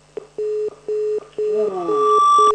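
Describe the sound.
Electronic telephone tones as a call to a city government assistance line cuts off: a few evenly spaced, steady mid-pitched beeps, then a longer continuous tone with overlapping higher tones.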